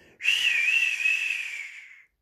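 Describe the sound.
An old woman whistling: a single sustained, high whistled note lasting nearly two seconds, breathy and wavering slightly in pitch before tapering off, with no voices.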